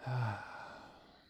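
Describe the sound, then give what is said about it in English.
A single deep breath, a soft airy rush that peaks at the start and then fades out slowly, heard alone. “Let's take a deep breath.”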